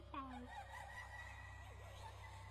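Bird calling in a video game: a short warbling call near the start, then a fainter sliding note, both quiet over a steady low hum.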